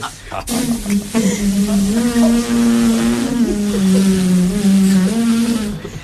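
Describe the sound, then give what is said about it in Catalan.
Engine of a gas-fuelled car changing gears, a loud continuous droning hum whose pitch shifts and dips a few times as the gears change. “Clar, perquè va canviant marxes. Esto es un coche con gas, este.”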